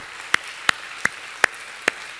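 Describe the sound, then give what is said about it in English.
Congregation clapping hands, five sharp, evenly spaced claps in a steady rhythm, each crisp and bright, with no voices. “Come on, let's clap our hands a little bit.”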